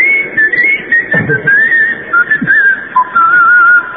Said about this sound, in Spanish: El chiflido va pasando.